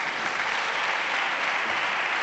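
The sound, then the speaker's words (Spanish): Applause fills a parliament chamber as the newly re-elected president of the Spanish Congress of Deputies is proclaimed. It is a dense, steady clapping from many hands, sustained and even throughout, with no voices on top. “Aplauso para Meritxell Batet, que ha sido reelegida presidenta del Congreso de los Diputados”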